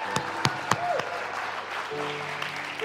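Audience applause at a one-year anniversary gathering: a steady, moderate bed of clapping, with a few sharper individual claps standing out near the start.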